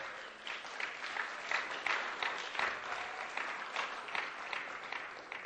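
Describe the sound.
Audience applause for a honeymooning couple, a steady patter of many hands clapping at a fairly quiet level, with sharper individual claps cutting through at intervals.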